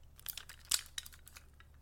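Crinkling and light tearing of a Duel Monsters trading card pack wrapper as it is opened, a quiet run of a few sharp plastic crackles with one louder snap near the middle, over a faint low hum.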